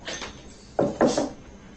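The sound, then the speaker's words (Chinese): A door is shut as people head out of a home to go eat: a few short, dull thuds and knocks close together, with no talk over them. “三二一，关门。”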